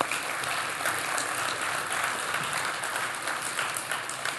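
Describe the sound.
Audience applause welcoming a guest speaker at a morning prayer gathering, steady dense clapping sustained evenly from start to finish.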